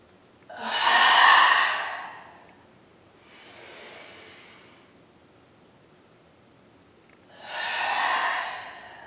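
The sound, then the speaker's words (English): Deep breaths with an open throat during a workout: three long, airy breaths, loud, then a softer middle one, then loud again, separated by near silence and with no talk. “Inhaling up, all the way up. Open up your throat. Exhale. Three more of those. Inhaling.”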